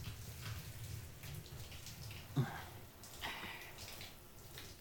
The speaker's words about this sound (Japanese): シャワーの温度はこれくらいかな。